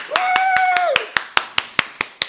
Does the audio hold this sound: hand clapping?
yes